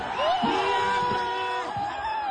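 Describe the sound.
Celebrating protesters in New Delhi cheer after the education minister's resignation, a crowd of shouting, whooping and high, drawn-out screaming voices layered over one another at moderate loudness.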